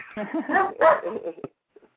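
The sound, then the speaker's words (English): A dog barks and yips in a few short, loud bursts over about a second and a half, mixed with speech, then falls quiet. “poor dog. I think he had something to say too.”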